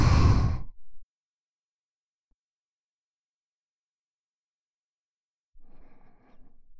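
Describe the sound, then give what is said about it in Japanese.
Breathing out and breathing in during a breathing exercise: a loud, rushing exhale, then a long silence, then a softer, breathy inhale. “吐いて、吸って”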